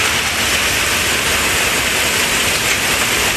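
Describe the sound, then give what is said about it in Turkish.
A severe summer hailstorm with heavy rain and wind in Tarragona, Spain. It makes a loud, unbroken roar of dense pelting and rushing noise that stays steady for the whole stretch. “İspanya'nın Tarragona kentinde şiddetli bir dolu fırtınası etkili oldu. Sağanak ve rüzgar birbirini izledi.”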